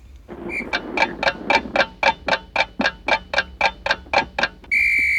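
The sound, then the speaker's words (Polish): A quiz timer ticks at a quick, steady rhythm, with many evenly spaced sharp ticks, then ends in a sustained high buzzer tone that marks the end of answer time. “Sprint polega na tym, że mamy wyznaczony czas, dźwięk, który wyznacza nam czas odpowiedzi. Ten dźwięk brzmi tak...”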